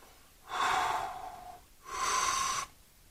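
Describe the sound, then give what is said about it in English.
Two long, breathy inhalations through the nose while nosing a rye whisky with sweet berry and oak notes, each a soft, hissing draw lasting about a second, separated by a brief pause. “Taking some breaths.”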